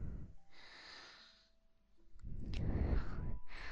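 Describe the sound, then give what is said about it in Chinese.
Heavy breathing from a younger brother at bedtime: a soft, airy breath drawn in, a pause, then a longer, rougher and louder breath out, quiet overall with no talk. “弟弟，你的呼吸声好重啊，”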